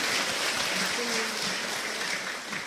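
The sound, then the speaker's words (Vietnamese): An audience applauds at a Buddhist talk in Vietnam, with dense, steady clapping that eases slightly toward the end and a faint voice surfacing briefly in the middle. “Thì chúng ta cho phần tràng pháo tay nhé.”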